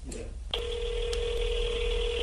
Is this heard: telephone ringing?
yes